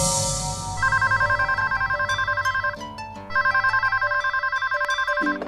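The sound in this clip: A telephone rings on a call to a free helpline for pregnant women. Two long bursts of bright, warbling electronic ringing are separated by a short pause, loud over a low background.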